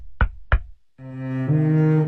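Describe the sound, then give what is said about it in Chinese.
Two sharp knocks on a door, evenly spaced. After a short silence, low sustained musical tones swell in and continue to the end. “这个时候，门口响起了敲门声。”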